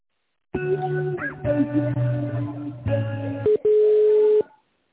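Electronic telephone tones play while a call is transferred. A few clipped tone segments follow one another, then a longer steady tone ends the sequence, with no talk over it.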